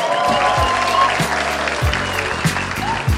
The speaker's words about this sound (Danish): Giv en stor hånd til Carsten Gren.